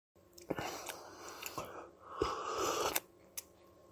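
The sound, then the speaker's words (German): Someone sipping a hot drink: a few short, faint slurping draws and small clicks, then a longer airy slurp, and one last soft click at the end, with no voices. “Er trinkt. Aber das ist was Heißes. Das klang nach einem Heißgetränk.”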